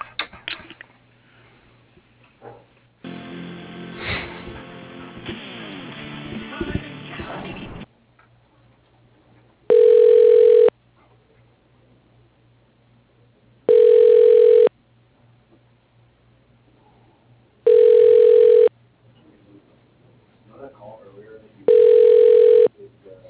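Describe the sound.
A telephone line rings while a call is transferred to voicemail: four even, steady ring tones, each about a second long and spaced a few seconds apart, with quiet gaps between them and a burst of noise before them.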